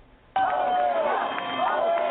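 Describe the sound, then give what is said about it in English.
A crowd cheers and whoops as a gym in Belmar, New Jersey reopens, bursting in abruptly after a near-silent moment and staying loud, with high shouted voices rising over the roar. “Atlas Gym in Belmar opened up at 8 a.m. to cheers and a huge crowd.”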